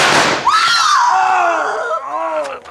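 A gunshot in an old western radio drama: a loud crack followed by a long, whining ricochet that slides downward in pitch and rings on until the end.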